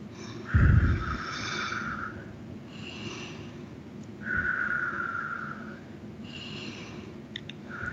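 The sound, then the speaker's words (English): Slow, deliberate breathing in and out during a guided meditation: soft, airy breaths that swell and fade in a calm, repeating rhythm, faint and without talk. “And as we take three breaths in,”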